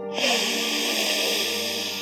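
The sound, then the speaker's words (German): A quick inhale through the left nostril during a yoga breathing exercise: an airy, breathy hiss that starts abruptly and holds steadily for about two seconds, fairly loud, with no talk. “Links zügig einatmen.”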